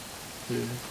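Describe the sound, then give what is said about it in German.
Rain falls at a campsite as a steady, soft, even hiss, with a brief low tone swelling in partway through. “vielleicht, wenn du mal den Regen abstellen könntest, du, Gott. Wäre auch gut.”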